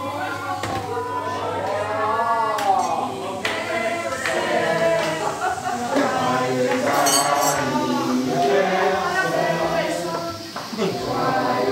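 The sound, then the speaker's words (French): Plates and a knife clink and clatter in a busy restaurant kitchen, sharp scattered taps and rattles ringing out over a continuous bed of people talking. “Je lui donne les assiettes, je lui donne le couteau.”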